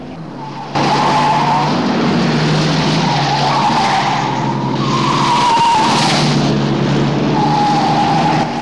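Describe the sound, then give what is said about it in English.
Car tyres screeching as a car speeds flat out down a single-track road: a loud, sustained squeal over engine roar, starting abruptly and holding steady throughout with a wavering pitch. “overtakes another vehicle and drives at top speed along the road. He screeches down a single-track road and then down the winding drive of Toby's house”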